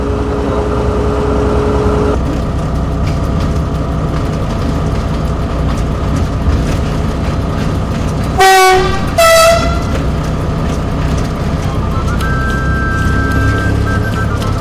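A train engine idles before departure while air pressure builds for a brake check, giving a loud, steady rumble and hum. Two short horn blasts sound midway, then the engine drones on.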